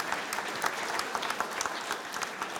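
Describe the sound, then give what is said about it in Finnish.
Applause at a medal ceremony, dense and steady clapping from a group that stays at an even level throughout, with no break. “Aplodeja.”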